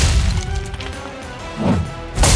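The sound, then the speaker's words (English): Heavy smashing and thudding impacts as a demolition ball on a crane breaks up rocks blocking a tunnel. The crashing is loud and continuous, with a brighter burst near the end. “Okay, we're gonna break the rocks with the demolition ball. Guys, take a few steps back just in case. Now, hit it!”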